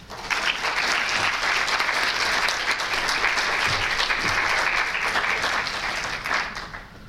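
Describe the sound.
An audience applauds to welcome a lecturer, a dense, steady patter of many hands clapping that holds for several seconds before tapering off at the end.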